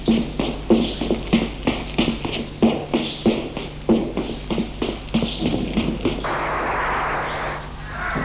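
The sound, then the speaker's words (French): Running footsteps, a quick series of heavy thudding steps in a steady rhythm, followed near the end by a brief burst of rough, broad noise. “Puis, il entend des pas. Ça court.”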